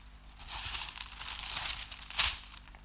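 Paper crinkles and tears as a letter is torn open. The rustling is soft and continuous, with one sharper rip near the end.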